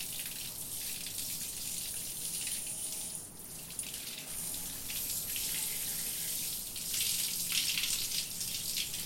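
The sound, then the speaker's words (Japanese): Water running steadily while shampoo foam is rinsed from hair: a continuous soft hiss and splash that swells and eases a few times, with no voices. “泡残りがないようにしっかり流すからね。 ちゃんと流さないと逆に頭皮に良くないんだよ。”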